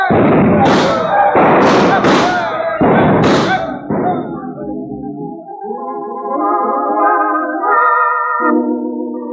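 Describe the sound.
Revolvers fire in a frontier-town shooting contest for free drinks. Several heavy, booming shots ring out in quick, irregular succession.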